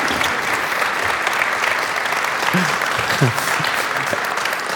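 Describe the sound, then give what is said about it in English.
Audience applause welcoming a rabbi to the stage: dense, sustained clapping that stays loud and even for nearly five seconds, with a couple of brief shouts rising over it. “Will you put your hands together with a warm welcome and welcome Rabbi Howard Voss Ullman.”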